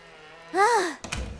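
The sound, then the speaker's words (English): A door is shut against wind and rain: a short wailing tone rises and falls, then a dull thunk sounds as the door closes, followed by a brief muffled rumble. “Now, please close the door before the wind blows the rain in.”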